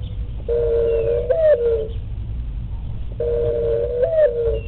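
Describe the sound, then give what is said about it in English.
A mourning dove coos twice, each coo a drawn-out, low, mellow tone that bends briefly near its end, heard alone over a faint steady background rumble. “The dove is the bird of hope. And yes, what you hear in the background is a mourning dove.”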